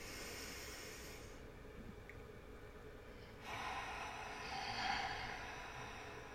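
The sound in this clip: A deep breath drawn during a group breathing exercise: a long, airy, hissing breath that swells louder in its second half, heard alone without talk.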